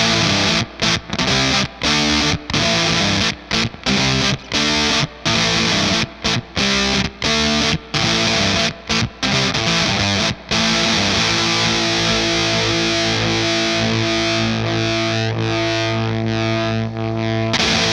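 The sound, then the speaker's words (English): Gritty, sputtering fuzz guitar riff from a Seeker Electric Effects Tonebender MK1 fuzz pedal into a Starfire Headstrong combo amp, with many choppy chord stabs and sudden stops, then loud distorted chords left to sustain and ring out. “I'm going to play more of a rock riff concept now, so you can hear really like the Velcro-y like fuzz effect that the MK1 has.”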